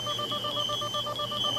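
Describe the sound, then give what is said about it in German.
Electronic beeping in a rapid, even rhythm of many short, high-pitched pulses that run continuously and loudly through the whole moment, with no voices. “Das Piepen stach wie ein Messer in meinen Schädel.”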